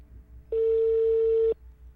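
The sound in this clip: A telephone call rings out with a single steady electronic ringback tone. The tone is pure and fairly loud, lasts about one second, and has quiet gaps before and after it.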